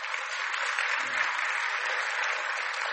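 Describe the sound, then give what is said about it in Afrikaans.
Applause from a crowd of people clapping hands, a dense, steady wash of claps at even loudness that lasts the whole clip. “lekker hande klap”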